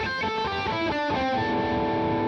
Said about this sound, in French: En effet, si vous jouez une mélodie, surtout en distorsion, on va vite avoir des cordes qui vont se mettre à résonner.